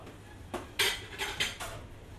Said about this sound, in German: Wie sie schneiden und legen, immer mit beiden Händen.